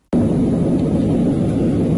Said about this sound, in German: So, und dann auch ein bisschen was aus der Luft kommt. Ihr sollt auch was von meiner Reise haben. Also, über den Wolken.